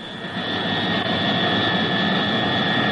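A luxury private airplane's engines in flight produce a steady, loud jet roar, with high whining tones held constant and no change in pitch.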